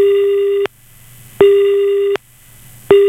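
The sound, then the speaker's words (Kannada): Telephone busy tone after a phone-in caller's line drops: a steady single-pitched beep that switches on and off in a regular rhythm, with two full beeps and the start of a third, loud and alone. “ಕರೆ cut ಆಗಿದೆ.”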